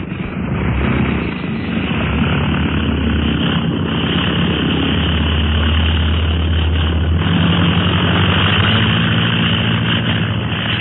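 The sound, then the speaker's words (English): A loaded aircraft's engine roars during takeoff: a loud, continuous droning hum with steady rumbling throughout and no voices. “In the air. Wasn't that a swell takeoff”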